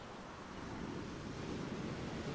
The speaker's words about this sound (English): on the rhythmical coming and going of the waves.